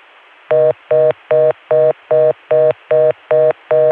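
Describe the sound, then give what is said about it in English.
Telephone dialing tones on a Chicago dial tone line: nine evenly spaced, loud buzzy beeps of equal length in a steady rhythm over a faint continuous background. “This time I got a Chicago dial tone and tried calling Richmond”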